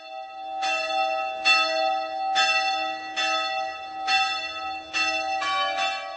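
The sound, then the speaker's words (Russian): A church bell tolls with repeated strikes in a steady rhythm. Each bright metallic clang rings over a sustained low hum that carries between the blows, with no voices present. “что качество звука колокола зависит от чистоты металла. Но не в этом тайна звука.”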